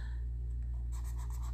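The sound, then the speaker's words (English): A marker scratches across a writing surface in a few short, faint strokes while someone makes a note, the squeaky rubbing standing out over a steady low hum. “Where's my marker here? Because I want to know that. Hold on. I'm very serious. Let me write this down.”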